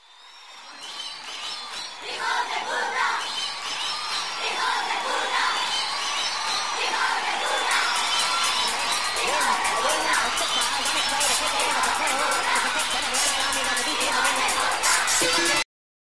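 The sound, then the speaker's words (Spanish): Crowd in Bahrain greeting Bernie Ecclestone with a swelling roar of shouts, whoops and cheering, rising quickly from quiet and then holding as a loud, dense mass of many voices until it stops abruptly. “Aquí vamos a escuchar ahora la bienvenida del amable público de Bahrein a Bernie Ecclestone y sus huestes.”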